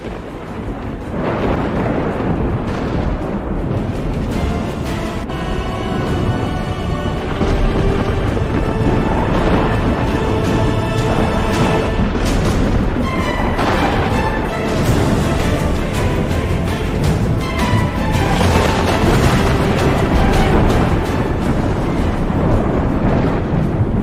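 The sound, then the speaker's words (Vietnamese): Thunder rumbling over the sea as a drama sound effect, a dense, loud, continuous roar with surging low rumble throughout and no clearly separate claps or voices. “Sấm chớp trên trời đùng đùng dẫn thẳng xuống mặt biển, tạo ra một kỳ cảnh kinh hoàng.”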